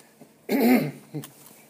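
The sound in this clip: A person coughs after breathing noxious fumes: one harsh, fairly loud cough burst, then a shorter, softer follow-up sound a moment later. There is no talk.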